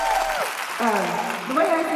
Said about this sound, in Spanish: Sí, creo que merece un aplauso.